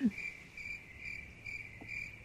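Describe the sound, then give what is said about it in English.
Crickets chirp as a sound effect for an awkward silence. Five short, quiet, high pulsing chirps repeat at an even pace over a faint, steady trill. “I'm guessing from the amazing silence that maybe Dan will pop crickets in for later.”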